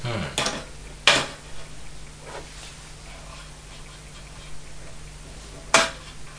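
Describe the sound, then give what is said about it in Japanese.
Kitchen clatter while cooking: a few sharp, brief clinks of dishes and utensils stand out over a steady low hum, with quieter rustling between them. “見た目はお料理してんの今。”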